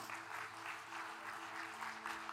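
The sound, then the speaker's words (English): A church audience clapping together during a service, a dense, steady patter of applause held faint and even throughout, with a low sustained tonal hum underneath. “Let's all stand together. Yeah, we should clap. It's a beautiful thing.”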